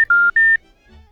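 Electronic telephone dialling tones as a call is placed on a Romanian radio phone-in: a brief clipped beep, then two clear steady beeps of slightly different pitch, followed by near silence.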